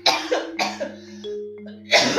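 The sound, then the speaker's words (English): Harsh, raspy coughing comes from a person with a COVID cough: a few loud, rough bursts close together, then a pause before a final cough. “Excuse me, y'all. COVID cough at its finest.”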